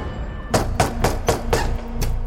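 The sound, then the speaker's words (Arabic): Knocking on a door: six sharp raps in a steady rhythm, with a slightly longer pause before the last one. “الحاصل دق الباب، تحلوا الباب”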